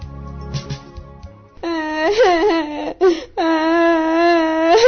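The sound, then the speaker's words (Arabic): A girl crying with high, wavering, sustained wails that start partway through and continue to the end, broken by a short pause. “يا بنت تعالي يا بنت، مالك بتبكي؟”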